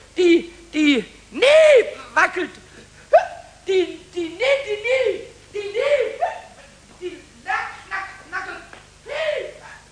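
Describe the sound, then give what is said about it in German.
A high, squeaky character voice hiccups over and over in a radio drama. Many short, sharp hics with a quick rise and fall in pitch come in an uneven rhythm, with voiced sounds in between. “Aber der Schluckauf blieb.”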